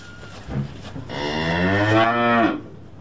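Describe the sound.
Cattle at pasture. After a couple of faint low sounds, a cow gives one long, loud, deep moo that holds steady and then cuts off, with no talk.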